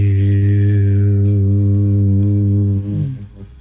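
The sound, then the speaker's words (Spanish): A long sung tone of the word Hu, chanted as a spiritual exercise. One low, steady voice holds a single note for almost three seconds before trailing off. “Se llama el canto de Hu. La palabra Hu se escribe H-U, se pronuncia J-I-U, suena así.”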